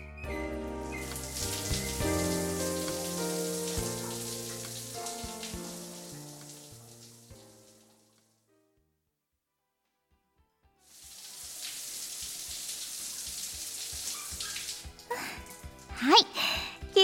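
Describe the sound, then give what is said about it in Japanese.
Water rinsing a body in a bath, heard as a steady hissing spray in two stretches separated by a few seconds of silence. The second stretch ends with several sharper splashes. “じゃあ旦那様、体をきれいに流しますね。”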